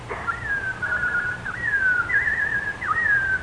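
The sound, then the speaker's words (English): A robin sings in an animated fairy-tale scene: a clear, continuous whistled warble that wavers in pitch and dips sharply a few times, standing alone over a quiet background. “What do I hear? Can it be that... Oh, it is. Oh, my little robin friend.”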